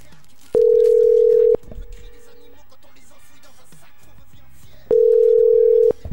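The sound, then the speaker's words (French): Ringback of an outgoing telephone call: two long, steady electronic tones, each about a second, separated by a gap of several seconds with only faint background noise. “Et hop, on va lancer l'appel. Ça va sonner. Et ça sonne.”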